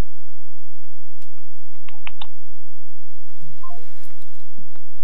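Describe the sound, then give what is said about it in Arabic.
Telephone call-in line tones: a few short dialing beeps in quick succession, followed by a couple of brief higher tones over a low, steady line hum. “نستقبل اتصال آخر معنا. اتصال، ألو مرحبا.”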